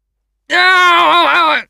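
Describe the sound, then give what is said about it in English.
A man screams while tied to a chair as a brainwashing machine grips his head. It is a single loud, drawn-out voiced cry of about a second, its pitch wavering slightly before it cuts off. “Screamed Barnes.”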